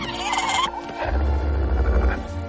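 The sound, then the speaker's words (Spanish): A crimson goregutter dragon from How to Train Your Dragon 3 lets out a loud, shrill, bleating cry that breaks off after about half a second, followed by a deep, sustained rumbling growl. “Tranquila, chica, no pasa nada. vamos a sacarte de aquí. ¡Un destripador carmesí!”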